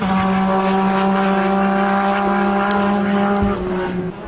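Engine drone from a McLaren hypercar racing car testing at the Portimao circuit ahead of its endurance-racing debut: a continuous, steady mechanical hum with strong sustained tones, holding level throughout without clear revving.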